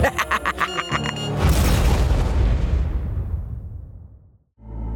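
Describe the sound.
A bomb explodes with a loud, deep roaring burst after a rapid run of ticking pulses. The blast rumbles and slowly fades over about three seconds before dropping to brief silence.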